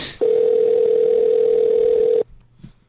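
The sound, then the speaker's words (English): A telephone dial tone while a call is placed: one unbroken, steady mid-pitched tone lasting about two seconds, loud and alone, then a brief faint sound after it cuts off. “we're dialing”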